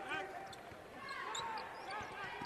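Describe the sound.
A basketball is dribbled on the court during a college game: a few dull, regular thuds bounce beneath a commentator's voice.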